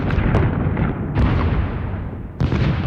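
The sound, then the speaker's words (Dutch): Bombardment explosions: a few heavy, loud booming blasts, each with a sharp onset and a long rumbling tail that overlaps the next. “Zo klinkt een bombardement.”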